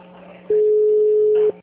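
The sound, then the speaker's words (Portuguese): A telephone line tone sounds while someone tries to place a call: one steady, mid-pitched beep lasting about a second, loud and clear against faint background noise. “Mas eu tô tentando ligar na hora, tem que atender, pô.”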